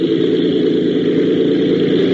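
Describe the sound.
An aircraft engine running at full throttle during a takeoff run gives a loud, steady, unbroken roaring drone with a heavy low hum and no clear change in pitch.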